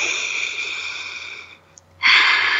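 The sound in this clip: A deep breath drawn in during a guided meditation: a long, soft airy rush that fades to near silence, then a louder, fuller inhale surges in and holds steady.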